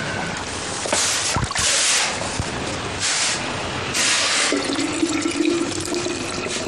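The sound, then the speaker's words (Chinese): Boiling water poured into a thermos flask gives a steady hissing rush with several louder splashing surges. No voices are heard. “水滚开了，把开水灌到暖壶里。”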